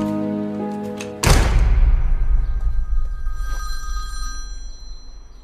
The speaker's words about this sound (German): Wer hat da gerade angerufen?